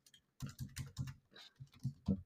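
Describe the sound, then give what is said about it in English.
Typing a search on a computer keyboard: a faint run of soft keystroke clicks in uneven bursts, with short pauses between groups of keys, with no voices. “let's go ahead and type in Vince McMahon”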